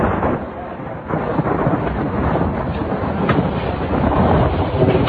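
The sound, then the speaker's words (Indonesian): Heavy rain pouring steadily in Bandung in the evening, a dense, continuous hiss with deep low rumbling like thunder beneath it, no voices. “Bandung saat itu turun hujan sejak sore”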